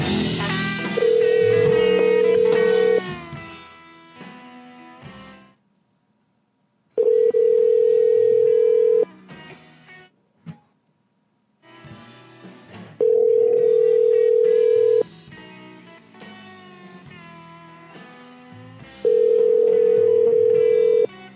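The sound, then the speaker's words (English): Ringback tone of an outgoing telephone call: four long, steady, mid-pitched tones, each about two seconds, separated by even gaps of silence over faint background sound. “Oh, let me try calling him.”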